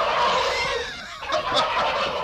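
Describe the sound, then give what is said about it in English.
Many turkeys gobble together in a room packed with the birds, a dense, continuous chorus of warbling, rattling calls that overlap throughout, with a brief dip near the middle before sharper, higher gobbles push through again; no voices are heard. “Why, those are turkeys. This room is filled with turkeys.”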